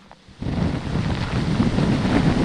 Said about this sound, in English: And it gets more ominous, and the wind speeds pick up steadily.